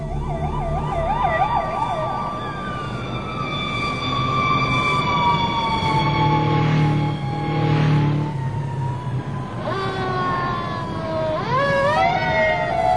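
Emergency vehicle sirens blare loudly with no talk: a fast warbling yelp at the start gives way to long, overlapping sliding wails, and a steep rising sweep comes near the end.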